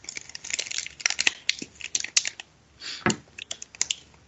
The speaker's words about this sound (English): It's time for the Pokemon pack, as I just alluded to, everybody. So, I have the pack right here. And let's go ahead and open this.